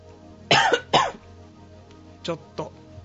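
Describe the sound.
A speaker who feels unwell, with a strained throat, coughs twice loudly in quick succession, then gives two lighter throat-clearing coughs after a short pause.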